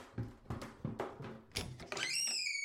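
Chair noise: a few dull thumps and knocks, then a drawn-out, high squeak with a wavering, bending pitch that holds to the end.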